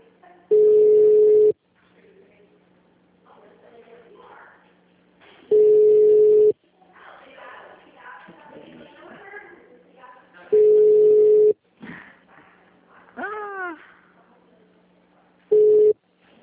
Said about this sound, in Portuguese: O Saema agradece a sua ligação. Obrigada. Sua ligação já está sendo transferida. Aguarde.